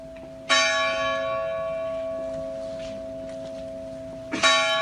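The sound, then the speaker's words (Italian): Church bell tolling for earthquake victims from a church bell recently returned to use after reconstruction. Two loud, bright strikes ring out, each followed by a long, humming decay; the second strike lands near the end. “Ed eccoli, 309 rintocchi, 309 vittime, rintocchi della campana della Chiesa delle Anime Sante”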